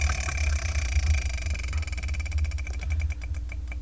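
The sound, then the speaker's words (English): A prize wheel is spun, and its pointer makes a rapid ratcheting run of ticks that gradually slow and spread apart as the wheel winds down, over a steady low hum. “I'm going to spin the Wheel of Manga. Whatever number it lands on, that's what I'll review for the next episode.”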